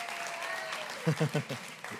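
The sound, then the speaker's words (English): Audience applause at a church Christmas Eve service as the audience gives it up for the warriors; a soft, steady patter of clapping runs beneath a speaking voice. “Welcome to Church on the Rock, where we are here to entertain you. Yeah, give it up for our warriors, if you would.”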